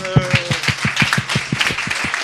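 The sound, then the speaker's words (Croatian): Rhythmic clapping at a marketing meetup event in Croatia: quick, evenly spaced claps keep a steady beat throughout, with a voice heard briefly at the start. “I pljesak za Iliju koji je ponudio platformu da se ujedinimo na ovom eventu.”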